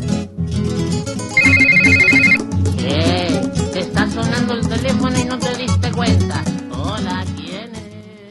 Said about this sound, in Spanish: y está sonando el teléfono y tenemos otra comunicación telefónica